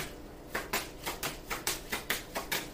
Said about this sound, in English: I'll take another card because, what, we're at 5 minutes and something. So we have plenty of time. May I have another card for Libra, please?